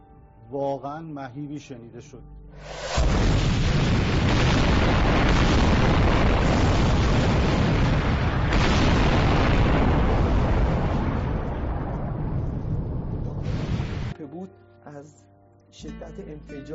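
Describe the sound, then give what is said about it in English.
Bombs dropped close to a school in Iran explode in a long, loud, continuous roar of blasts lasting about eleven seconds, with people talking just before and after. “Here's U.S. bombs dropped close to a school full of young boys in Iran. Look.”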